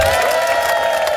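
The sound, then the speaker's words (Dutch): A short burst of crowd cheering and applause for the founder of a beach hockey club after a championship win, steady and fairly loud. “Applaus voor de oprichter van Beachhockey Zeeland, Veli Erjurouk.”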